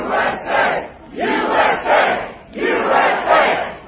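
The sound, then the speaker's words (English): A crowd at a presidential political rally chants in loud, rhythmic bursts, the massed voices rising and falling in repeated short phrases with brief dips between them. “Ahead of the president's speech, patriots in the crowd shouting,”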